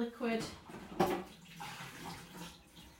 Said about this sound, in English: And then just going to run the cold water.